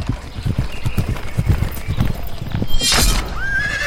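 A ridden horse's hooves clip-clop in a steady, even rhythm, and the horse whinnies loudly near the end.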